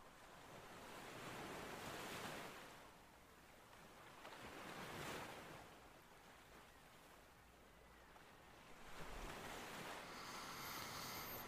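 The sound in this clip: Ocean waves break and wash onto a sandy shore, a soft, broad hiss that swells and recedes in a few slow surges, with a steady breezy rush filling the gaps between them.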